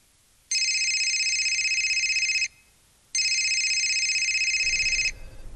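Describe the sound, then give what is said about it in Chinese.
Loud, high electronic telephone ringing: two long, even rings of about two seconds each, separated by a short pause, with faint low background noise after the second ring. “正说话间，好水源的电话响”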